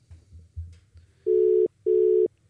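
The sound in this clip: Telephone line tones on an outgoing call: two steady, mid-pitched beeps of equal length, separated by a short gap, after a low background rumble.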